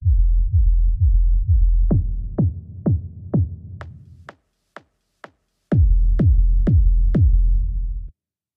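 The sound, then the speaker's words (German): A synthesized kick drum split into low, mid and high bands, heard in sections. Deep low thumps come first, then brighter, punchier hits, then thin high clicks on their own, and last the full combined kick. All hits fall in a steady rhythm, with no talk. “Fangen wir an mit der Kick. Die Kick habe ich auch wie letzte Woche in drei Teile aufgeteilt. Einmal einen Tiefton, Mittelton und Hohtonbereich. Das klingt wie folgt.”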